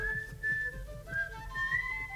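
A woman whistles a clear tune alone, quiet and steady, moving between sustained notes at different pitches.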